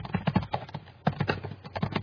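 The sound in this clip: Rapid typing on a computer keyboard: many quick key taps in an uneven, continuous rhythm, with no talking.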